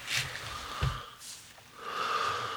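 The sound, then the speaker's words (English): A deep breath drawn during a guided gratitude exercise, faint and airy, with a short snort-like sniff among the soft breathing. “Try it one more time. Just take a breath.”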